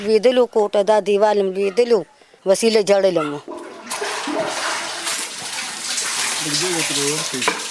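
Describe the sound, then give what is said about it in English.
Water sloshes and splashes as floors are washed in a flood-damaged house, a loud, steady rushing wash that starts after a stretch of talking, with a voice speaking again over its end. “She salvages what she can and tries to keep it clean, washing the floors that remain.”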